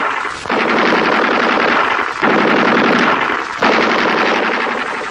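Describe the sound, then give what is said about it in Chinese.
An enemy sentry machine gun fires long, loud, rapid bursts. The rattling fire is almost continuous, with a few brief breaks between the bursts, and no voices are heard. “这是敌人值班机枪”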